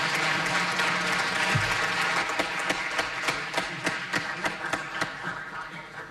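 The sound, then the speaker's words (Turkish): Audience applause welcoming the conductor of a choir at a Turkish folk song concert, a dense wash of clapping that thins out into distinct, separate claps toward the end. “Ve ben koromuzu yönetecek şefimiz Soner Özbilen'i alkışlarla huzurunuza davet ediyorum.”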